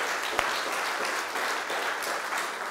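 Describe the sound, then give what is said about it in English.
Sustained applause from a church audience honoring fathers, a steady, dense wash of clapping that holds at an even level throughout with no voices on top. “so can we give our dads just a great big applause?”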